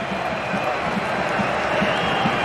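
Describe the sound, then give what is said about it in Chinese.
Home fans at a football match give a steady wash of crowd noise with soft scattered applause. The sound stays moderately loud and even across the short stretch. “咱们看看司机，让他提前接受主场球迷的掌声。”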